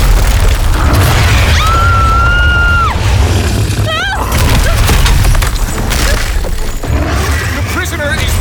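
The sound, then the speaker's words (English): Heavy crashing booms of giant reinforced concrete chunks torn from a floor and swung like wrecking balls, a loud, dense and continuous barrage of impacts with brief high tonal sounds mixed in. “He's turned his restraints into weapons! He's swinging giant chunks of reinforced concrete like wrecking balls!”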